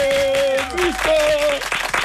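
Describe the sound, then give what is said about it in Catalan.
Applause greeting a guest at a lively gathering: a short burst of clapping with strong voices and tonal calls rising over it, dipping briefly in the middle and then returning. “un aplaudiment per l'Arnau París”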